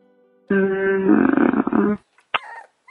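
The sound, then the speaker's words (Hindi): A puppy growls steadily and fairly loudly for about a second and a half, then gives a short high yip followed by brief whimpering sounds. “What's that? Is that a is that a dog? What? What the fuck? You got a puppy?”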